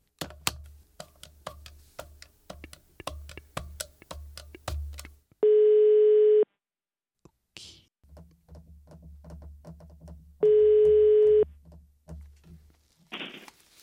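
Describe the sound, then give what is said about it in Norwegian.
Telephone tones while a call is placed on speakerphone: bursts of rapid clicking lead into two long, steady, evenly pitched beeps several seconds apart. No one speaks. “La oss ringe han. Slå på tråden.”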